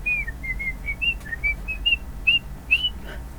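A person whistling a tune, a string of short, clear, high notes in an uneven rhythm that shift slightly up and down in pitch, heard alone over a low steady hum.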